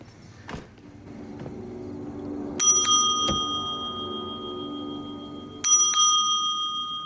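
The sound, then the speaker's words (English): A bell on a motel front desk is rung twice, each time as a quick cluster of bright metallic dings whose clear tone rings on afterward, over a low steady hum. “He goes in and rings the bell on the front desk.”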